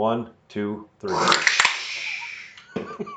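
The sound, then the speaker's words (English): A voice imitates cracking open a can of beer: a few spoken syllables, then a sharp mouth click and a long breathy hiss of fizz, followed by more talk. “As punishment and penance for your cracking the beer early, while Josh and I crack real beers, you need to pretend to crack a beer and make the sound of it.”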